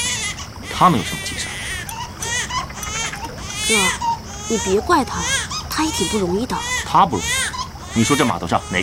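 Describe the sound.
An infant cries throughout in wavering, high-pitched wails, with an adult voice soothing over the sobbing.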